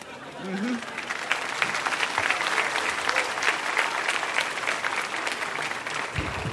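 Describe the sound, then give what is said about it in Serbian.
Audience applause for actors after a live stage performance: dense, steady clapping from a crowd, sustained evenly for over six seconds, with a voice briefly audible near the start. “Sad kada ste tako lepo aplauzom ispratili i naše glumce, Anu Simić i Milana Milosavljevića”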